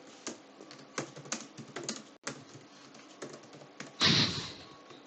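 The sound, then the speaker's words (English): Typing on a computer keyboard: a quiet, irregular patter of clicks and taps, heard alone, that ends in a louder, denser cluster of strokes. “As you type away, trying to find all the deets.”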